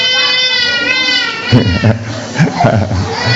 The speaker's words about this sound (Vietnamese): Đó là tội nghiệp đứa bé chưa. Nhưng mà nó đâu có sao đâu, mẹ nó vẫn ấm nó mà, mẹ nó đâu có bỏ nó. Con cứ bế bé đi đi con, không sao đâu. Nó khóc thì là nó khóc thôi.